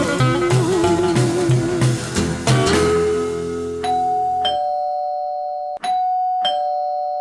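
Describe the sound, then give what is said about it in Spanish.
A doorbell chimes with sustained, bright electronic tones, sounding a couple of separate rings in the second half as a busier earlier sound fades away. “Sonó el timbre y a la reunión se plegó otro amigo, Charlie”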